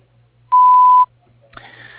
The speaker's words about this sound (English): Please wait for the tone to leave a message